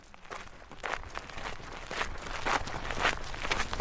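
Footsteps walking across a golf course at St Andrews, a steady series of soft, gritty steps over a faint background hiss.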